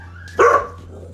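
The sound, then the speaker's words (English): A single sharp dog bark bursts out of a quiet background over a steady low hum. It is short and fairly loud, with no other barking and no talk. “Excuse my dog.”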